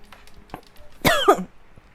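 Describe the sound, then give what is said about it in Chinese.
A single sharp cough after choking, during a tarot reading: one short, loud, rasping burst that rises out of faint background noise and quickly fades. “不好意思，我刚刚突然整个呛到，所以我刚刚按了暂停，所以重来。”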